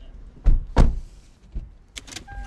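People getting into a Lexus car: two heavy door thuds in quick succession, then a softer knock and a brief rattle, ending with a thin, steady electronic tone.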